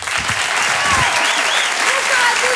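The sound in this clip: Audience applause welcomes a comedian onto the stage at a French comedy show. Loud, steady clapping fills the whole stretch, and some voices are heard over it.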